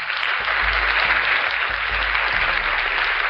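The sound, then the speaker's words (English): Audience applause for a show's two guests: a sustained, even roar of many hands clapping together, steady in loudness throughout with no voices over it. “So let's give a big round of applause to both of our awesome guests,”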